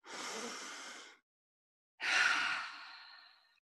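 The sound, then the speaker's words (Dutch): One deep breath during a relaxation exercise, drawn in through the nose and let out through the mouth: a soft airy inhale, about a second of silence, then a longer, slightly stronger exhale that trails off. “En dan mag je even een keertje diep in en uitademen.”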